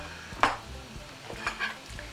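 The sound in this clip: Onions and peppers being stirred in an oiled pan over a soft, faint sizzle, with a few light scrapes and clinks of the utensil against the pan.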